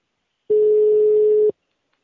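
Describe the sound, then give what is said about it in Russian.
A telephone line tone: one steady, mid-pitched beep lasting about a second, loud and alone, with silence before and after. “Надоели уже эти гудки постоянные.”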